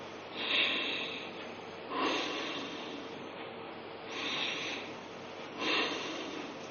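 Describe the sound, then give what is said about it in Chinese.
Forceful nasal breathing from a throat-breathing exercise done with the mouth closed, teeth apart and tongue raised. Four hissing breath bursts come at fairly regular intervals, alone with no talk. “就是嘴巴自然关闭，牙齿打开，舌头悬起，用鼻子进行强力的吸入和强力的吐出。我做一遍大家看。”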